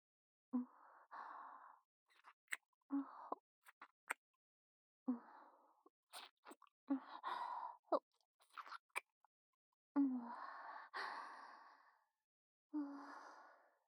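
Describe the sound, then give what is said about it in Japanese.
Deep, wet kissing with tongues: faint, irregular bursts of soft wet smacks and small clicks, mixed with breathy sighs and quiet breathing between them. “こんな浅いキスでは服従の誓いにはなりませんよね。もっと深く舌を絡ませていただきます。”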